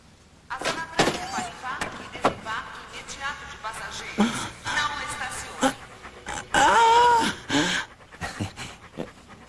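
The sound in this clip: Dogs panting rapidly with occasional whimpers, mixed with several sharp thumps and knocks in a dubbed film scene.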